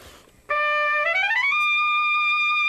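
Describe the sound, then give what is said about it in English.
A piccolo trumpet, a small high-pitched trumpet, plays solo: a short held note, then a quick upward climb to a sustained, piercing high tone held to the end. “this little teeny trumpet called the piccolo trumpet. And it's half the size, and it sounds much, much higher. Listen to this.”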